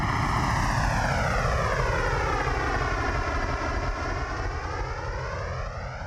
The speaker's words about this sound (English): That's the sound of an airplane taking off. Because I don't really know how to start this story, so I went with the sound effect.